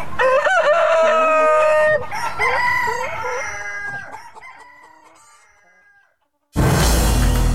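A rooster crowing and chickens clucking, from chickens kept by people at home: several loud, high crowing calls mixed with clucks that gradually fade, then cut off sharply.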